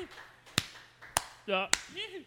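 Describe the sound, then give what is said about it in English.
A thin smattering of hand claps sounds in a radio studio: three sharp, separate claps spaced roughly half a second apart, with brief voices heard between them. “How about a smattering of applause? Just a smattering.”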